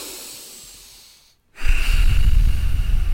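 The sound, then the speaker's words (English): Breathing through the nose: a soft, airy stretch of breath, a short silent pause, then a louder, steady rush of air. “So if you take a breath in through your nose and out through your nose right now, just...”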